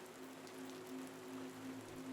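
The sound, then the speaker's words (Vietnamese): Rain patters on a layer of melaleuca leaves on a forest floor as a thunderstorm moves in. It makes a steady, dense hiss of many drops with no distinct single hits, and no voices are heard. “Chỉ trong giây lát, lớp lá tràm dưới chân đã nghe lộp đợp tiếng nước mưa.”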